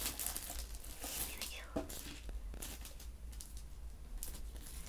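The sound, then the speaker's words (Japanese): Soft crinkling and tearing as a seal is peeled off a cup noodle lid, a few faint crackles and rustles at low volume. “シールを剥がして、このシールってさ”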